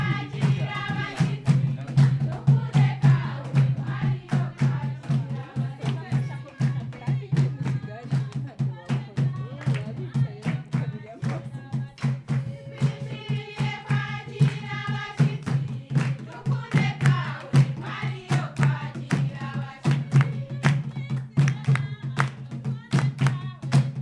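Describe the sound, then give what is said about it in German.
A coffee farmer woman sings while dancing in a field recording. Her voice runs over steady, rhythmic percussive beats that continue through the whole stretch. “das ist der Tanz und Gesang der Kaffeebäuerin, den wir jetzt hören, denen wir begegnet sind”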